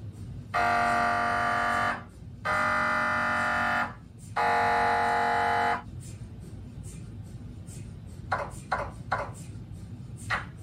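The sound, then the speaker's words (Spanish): An MRI scanner operating: three long, loud buzzing tones rich in harmonics, separated by short pauses, then a few quicker pulses over a steady low hum. “Así suena una máquina de resonancia magnética.”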